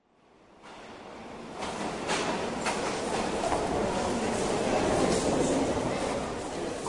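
A busy train station platform at Saint-Malo on the first Saturday of July, crowded with holidaymakers: a broad rushing rumble of rail noise swells up from silence and holds steady.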